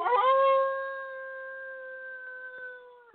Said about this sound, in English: It is a howl. You know, when coyotes howl, they're sad.